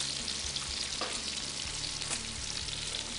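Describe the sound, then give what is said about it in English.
Food stirred with a spoon in a heated pan gives a steady, bright sizzle, with a few soft scrapes as the spoon moves through it. “And start stirring that, please. So I'm going to put a little heat on there for you.”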